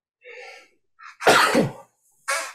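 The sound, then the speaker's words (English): A sneeze acted out by a voice during a tabletop horror role-playing game: a couple of breathy intake gasps build into one loud, forceful sneeze burst, followed after a pause by a short, sharp exhale. “And GM sneezes.”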